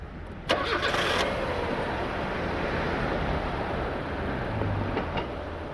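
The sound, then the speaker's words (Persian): A car engine starts with a short burst of cranking, then settles into a steady, even idle rumble that continues to the end. “آره استارت بزن.”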